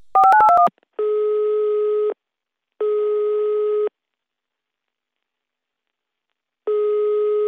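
A mobile phone call tone: a quick run of short beeps of shifting pitch, then three long, steady two-tone signals separated by silent gaps.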